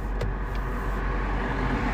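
A car driving onto a motorway gives a continuous, loud rumble of engine and road noise. The sound is broad and steady, with no distinct events and no talk.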